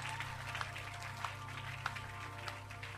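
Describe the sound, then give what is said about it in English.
An audience clapping hands for Jesus at a church service. The applause is a dense, fairly quiet wash, with a few sharper claps standing out over a steady low hum. “Clap your hands for Jesus. Put your hands together for the Most High God.”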